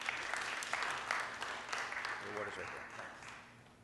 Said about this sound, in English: With that, join me in welcoming Rabbi Adam Mintz, tonight's program, first of three.